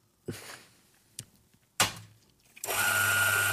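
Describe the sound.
Chiato coffee grinder grinding coffee at a finer setting: a few sharp knocks and clunks come first, then the motor starts into a loud, steady, buzzing whir with a constant tonal hum that continues to the end.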